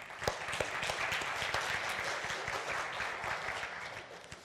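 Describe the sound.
An audience applauds award-winning artisanal coffee roasters, with fairly faint clapping in which separate sharp claps stand out, tapering off toward the end.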